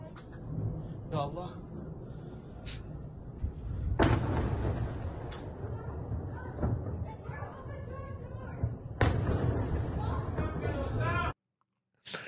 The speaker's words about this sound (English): Yep, that was a ballistic missile.